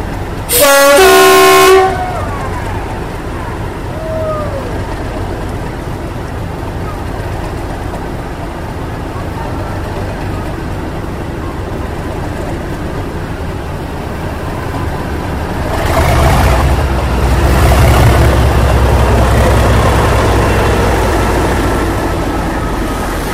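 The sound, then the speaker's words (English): A Class 37 diesel locomotive, number 37175, powers up for an Autumn Diesel Gala on the Bowness and Kinneil Railway. A brief loud horn blast opens, then a steady engine drone continues and swells into a heavier, louder rumble near the end. “Full marks to you if you said, it's a Class 37. It is. But you'll have to take my word for this. It's 37175, powering up for her part in the Autumn Diesel Gala on the Bowness and Kinneil Railway”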